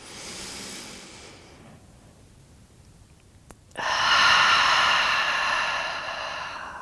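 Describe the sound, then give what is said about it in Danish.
Slow, deep breathing during a yoga exercise, with the shoulders squeezed up toward the ears: a long, airy breath, a quiet pause, then a louder sustained breath that holds steady to the end. “Gør det lige en gang mere her. Indånding. Klem skuldrene op til ørerne. Åh, oh. oh, udånding. Giv slip. Gør det en sidste gang her.”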